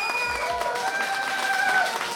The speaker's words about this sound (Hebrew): כפיים למנדי ברנבוי!